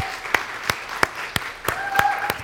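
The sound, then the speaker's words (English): An audience applauds fathers at a gathering. Sharp, evenly spaced claps keep a steady beat, with a faint tone and some voice underneath. “Let's go ahead and applaud the dads.”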